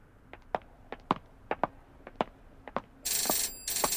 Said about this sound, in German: Sollten wir da vielleicht rangehen? Ah, das ist doch eine Telefonzelle. Der Anruf ist bestimmt nicht für uns.